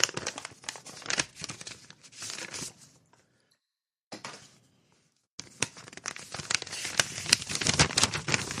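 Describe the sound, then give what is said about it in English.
Packaging rips and crinkles as someone opens it, in loud, rough bursts of tearing that stop for two short quiet gaps midway before the ripping resumes and grows busier. “I could use like a pencil to open it or something. Wait, this doesn't. This isn't working very well. It's ripping the thing.”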